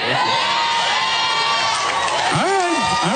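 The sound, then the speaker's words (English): A live studio audience cheers loudly, with continuous crowd noise, whoops and shouting voices throughout. “All right, ladies and gentlemen, a live studio audience in the building.”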